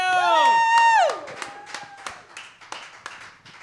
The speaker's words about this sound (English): Please give her a warm welcome. Please put your hands together for Camille Roberts,